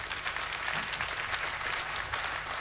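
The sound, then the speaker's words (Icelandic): Audience applause at a seventieth-birthday tribute concert: a dense, steady patter of many hands clapping that continues without a break for the whole stretch. “Já, það má alveg klappa fyrir því.”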